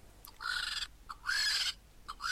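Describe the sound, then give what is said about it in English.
A vulture call as a sound effect: two harsh, raspy, screeching bursts, the second longer than the first, with a third just beginning at the end. “That is the sound of a vulture.”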